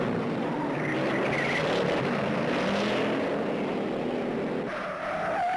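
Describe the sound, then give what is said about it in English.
Roaring car engines and skidding tires as cars race through the streets of San Francisco, a loud, continuous, dense wash of noise with no pauses and no voices. “They're just racing around the streets of San Francisco, just like jumping these cars.”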